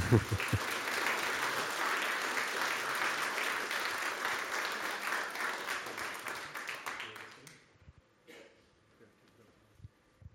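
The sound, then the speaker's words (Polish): Applause at a book award ceremony as a statuette is presented: dense, steady clapping for about seven seconds, then fading quickly to near quiet with a few faint scattered sounds. “Wielkie, wielkie gratulacje i to jest teraz ten moment wręczenia statuetki. Brawa jak najbardziej.”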